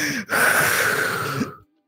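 One long exhaled breath, a soft airy rush that holds steady for just over a second, then cuts off into silence.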